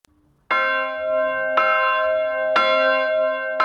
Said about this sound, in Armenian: Այսօր հայոց եկեղեցու զանգերը առավոտից ձայնում են աշխարհով մեկ։